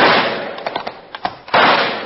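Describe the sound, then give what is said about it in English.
Rifle shots fired toward a tall tree in the moonlight: a few sharp cracks in quick succession over a rough, noisy wash, then a louder burst near the end. “I'll try my rifle. You two head for cover. Nothing doing now. I got a rifle, too. All right, shoot for that tall tree sticking up in the moonlight.”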